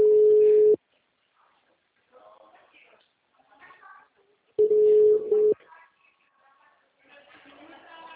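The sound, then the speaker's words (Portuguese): Telephone ringback tone on an unanswered call: two steady, low-pitched tone bursts separated by a long pause, with faint voices talking quietly in the gaps. “eu estou tentando te ligar, mas o senhor não me atende”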